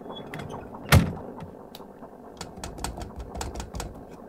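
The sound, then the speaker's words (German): A submarine hatch being closed: a single loud, sharp metallic clank, followed by faint, rapid mechanical clicking. “Komm, Luke, schließen.”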